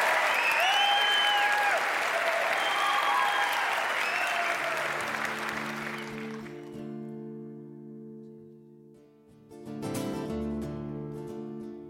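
Audience applause at the Brown Theater in Louisville, Kentucky, welcoming a band onto the stage during a live show: dense, steady clapping for about six seconds, then thinning out as sustained musical tones from the band come in.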